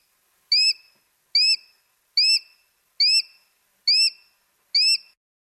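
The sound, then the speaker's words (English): A bird tweets six short, high-pitched chirps. They come one by one at an even, steady pace, with clear silence between them and no other sound. “And maybe we'll let you hear the bird tweeting again.”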